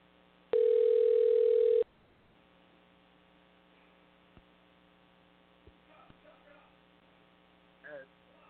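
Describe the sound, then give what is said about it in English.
A loud, steady telephone dial tone plays for about a second while a call is being placed, then cuts off, leaving a low mains hum with a few faint clicks and murmurs. “All right, let's try calling him again.”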